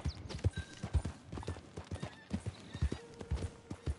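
A horse's hooves clip-clop across the ground in the Red Dead Redemption 2 video game, a steady run of loud, sharp hoofbeats in a quick, even rhythm with no talking over them.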